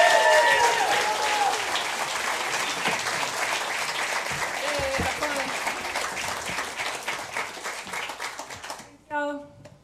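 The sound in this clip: Audience applause greeting a country singer on stage at a live evening music show: a thick wash of clapping, loudest at first and slowly thinning, with a few whistle-like tones early on and a voice starting as the clapping fades.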